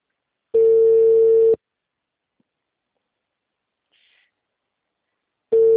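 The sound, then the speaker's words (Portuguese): Telephone ringback tone sounds while a call is being placed: two steady, mid-pitched one-second beeps separated by a long stretch of silence. “Pode ligar? Pode sim. Aí eu ligo e atende.”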